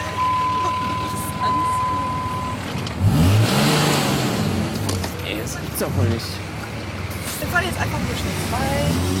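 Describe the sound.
A car pulls away, its engine rumbling and revving as it accelerates, with voices heard over the engine noise.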